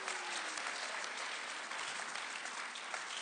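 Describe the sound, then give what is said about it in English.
An audience applauds, with dense, even clapping that holds steady from start to end, with no talk over it. “Can you give them a hand? Welcome them up here.”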